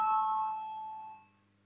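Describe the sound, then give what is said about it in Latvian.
A bell rung to call a vote in the Latvian parliament chamber, a bright ringing tone that sustains, then gradually fades out over about a second. “Lūdzu zvanu”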